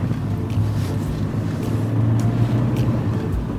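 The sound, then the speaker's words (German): Steady engine and road rumble from a car driving along a regional road, a constant low drone with wind noise over it and no talk. “wir fahren über die L412 Richtung Villeracher Talsenke”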